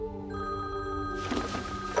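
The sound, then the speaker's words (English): Mobile phone ringing with an incoming call in a cockpit: a steady, sustained ringtone over a low background hum, with a louder noisy rush joining in the second half. “He checks his phone as he receives a call from Kira.”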